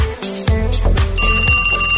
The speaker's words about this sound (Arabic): أجمل شي بس اسمع هيك رنة التليفون تنسمع أصواتكم.